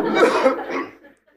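A person coughing: a burst of rough, throaty coughs with a laugh-like quality, loud at first and then trailing off into quiet.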